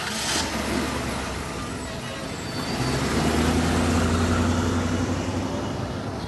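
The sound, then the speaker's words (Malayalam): A police jeep drives past at the Kundapura bus stand, a low engine rumble with a droning tone that swells louder in the second half and stays strong to the end. “ഹോ, ദാ police jeep പോയി.”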